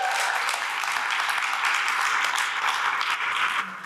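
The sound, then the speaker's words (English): Church audience clapping during a service, a dense, steady wash of applause lasting nearly four seconds before easing off at the very end. “Come on, if you believe that, give the Lord a clap and a praise.”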